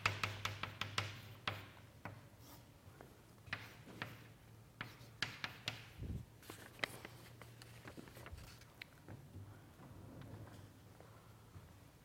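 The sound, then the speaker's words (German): Handwriting during a logic lecture: soft scratching pen or chalk strokes with many light taps and ticks, irregular and fairly faint, continuing steadily with no talking. “Und den Rest schreibe ich ab.”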